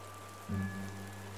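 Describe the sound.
Rain falls at night over a riverside military camp, a faint, steady hiss that continues throughout, with a brief low swell partway through.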